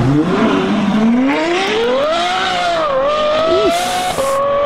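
A Formula 1 race car's engine screams at high pitch, rising steadily as it accelerates, dipping briefly, then holding a loud, continuous whine until the end.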